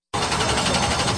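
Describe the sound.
Race car engine roaring at full throttle at a Red River Valley speedway: one loud, sustained, rough roar with a steady throb, starting abruptly and held throughout without a break.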